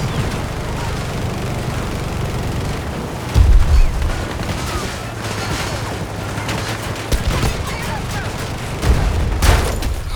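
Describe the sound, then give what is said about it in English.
Light machine gun fire in a video game, heard as dense, noisy gunfire with louder bursts near the start and end over a continuous rattle of combat sound. “Oh! I just got fucking LMG right in the face.”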